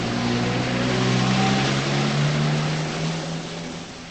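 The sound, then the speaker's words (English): A car drives away, its steady engine hum holding a low, droning tone that eases off slightly toward the end. “She jogs to her car and gets in. She drives away.”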